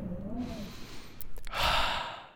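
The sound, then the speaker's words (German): A person breathes deeply in and out outdoors in cold, fresh wind while walking through a snowy winter landscape in the Alps. A quieter breath is followed by a louder, airy, sigh-like exhale. “Ich atme tief ein und aus.”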